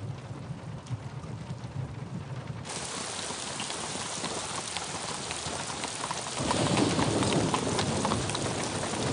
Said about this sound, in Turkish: Bayazıt'la Hürrem bardaktan boşalırcasına yağan yağmurda yola devam ediyorlar. Ne zaman dinecek bu yağmur?